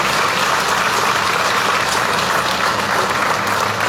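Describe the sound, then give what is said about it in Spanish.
Loud audience applause at a members' assembly honoring comrades and ratified officers. Dense, continuous clapping forms an even, sustained roar at constant volume through the whole clip, with no talk over it. “quiero pedir un fuerte aplauso para el hermano Richard Rojas, Michael Rojas”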